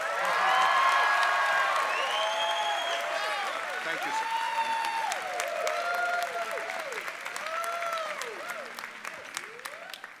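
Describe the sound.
Loud, sustained crowd applause with scattered cheers and whoops greets the commencement speaker at a Yeshiva University graduation ceremony. It is dense clapping throughout, strongest at the start and easing slightly later.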